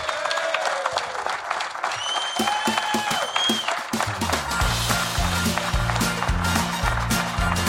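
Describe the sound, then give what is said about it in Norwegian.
An audience claps at the end of an event. The applause is dense and steady, and it stays loud throughout without a break. “Så vi avslutter med en applaus for alle opp, og sier vi tusen takk for oss.”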